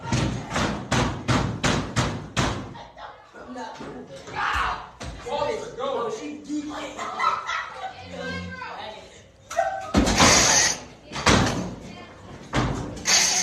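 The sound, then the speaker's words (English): Repeated banging on a school door as someone strains to hold it shut: a rapid run of loud thuds at the start, then another heavy burst of slams later, with shouting voices in between. “If you can't see what's happening, it looks like a teacher or an administrator or somebody is trying to hold a door”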